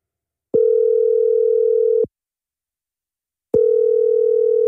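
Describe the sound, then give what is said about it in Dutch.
Telephone tones sound while a call is placed to a hotline: two long, steady, even-pitched beeps, each about a second and a half, separated by a clean silence. “Laten we even bellen”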